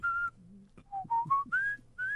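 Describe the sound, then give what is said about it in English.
A person whistles a tune alone in clear, pure notes. A long high note comes first, then after a pause a few short notes step upward in pitch, ending on two sustained higher tones. “you want me to just whistle until we get that?”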